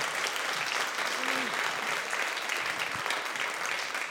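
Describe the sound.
A theatre audience applauds in a steady, even wash of many hands clapping, with a brief cheering voice rising through it.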